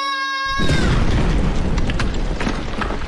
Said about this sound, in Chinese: 放炮前，我会大喊：放炮啦！放炮啦！ 放炮啦！